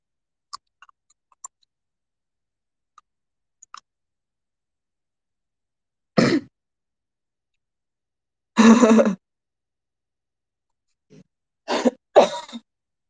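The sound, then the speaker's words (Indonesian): Coughing from a person who feels overfull after eating chicken: a few harsh, separate coughs spaced seconds apart, the second longer and rougher, the last two close together. Faint small clicks come earlier against near silence. “Aku kalau kekenyangan batuk-batuk tau.”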